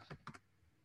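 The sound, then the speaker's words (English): Three quick, faint keystrokes on a computer keyboard, two of them close together, then quiet. “Oh, sorry. He just typed in there. Let me type it myself.”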